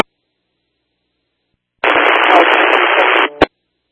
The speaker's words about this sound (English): King 7 is all static. Radio's copying static only.